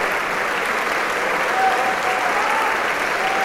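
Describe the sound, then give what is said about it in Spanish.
Sustained applause as a concert audience gives the musicians a standing ovation at the close of a tango concert: a dense, even roar of many hands clapping without a break. “Salen y agradecen al público una vez más y a los músicos de Camerata que se ponen de pie para recibir la ovación junto con el maestro.”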